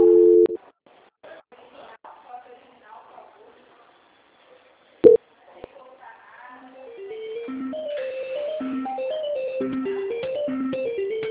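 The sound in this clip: Telephone call-transfer tones: a short steady dual tone, then a sharp click, then a stepped electronic melody of beeps that runs continuously to the end.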